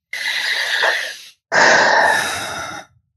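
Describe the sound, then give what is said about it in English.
A big, deep breath taken during a tapping exercise: two long, breathy rushes of air separated by a brief pause, the second fuller and louder, with no talking. “Big, deep breath.”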